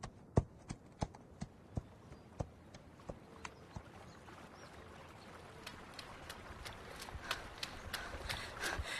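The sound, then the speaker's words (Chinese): A horse's hooves clip-clop in many sharp, evenly spaced strikes. The steps start clearly separated, then grow denser and louder toward the end over a rising background rumble. “赶紧把咱们家马牵出来”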